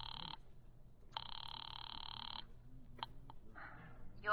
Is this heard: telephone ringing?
yes

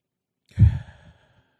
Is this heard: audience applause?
no

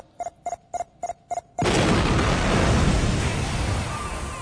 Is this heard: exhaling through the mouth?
no

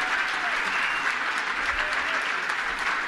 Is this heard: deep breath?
no

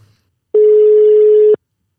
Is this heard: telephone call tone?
yes

